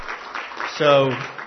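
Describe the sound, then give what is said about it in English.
A church audience applauds a choir from Central Union Baptist with steady, mid-level clapping, and a voice briefly rises over the applause. “let's give just a round of applause to Central Union Baptist.”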